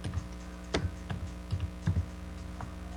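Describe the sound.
Soft keystrokes on a computer keyboard, a few scattered, faint taps with uneven spacing over a low steady hum.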